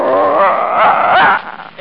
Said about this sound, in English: It's just a little dog. Now, you don't want to get me busted, do you? Oh, you're not going to get busted. He's trained, too.